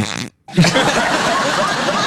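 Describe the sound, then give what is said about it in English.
A person farting: after a brief silence comes a short, low, blurting fart, then a steady broad noise that carries on to the end. “And then I farted.”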